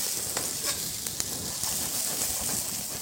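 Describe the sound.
Fried potatoes with onions sizzle in a pan, giving a steady bright hiss with a few small crackles and pops throughout.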